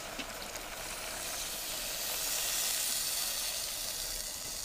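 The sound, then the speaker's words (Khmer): Water hisses and sizzles as more is poured into a hot cooking pot, producing a faint, continuous steamy hiss that swells slightly midway and holds steady without any talk. “ខ្ញុំសូមដាក់ទឹកបន្ថែមទៀត”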